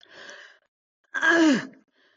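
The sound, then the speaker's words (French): A voice imitates a woman's cry in labour as a braked exhale held back in the throat. A softer breathy groan is followed by a louder, strained moan whose pitch slides downward. “Un cri, c'est un freinage, c'est un expire freiné dans la glotte.”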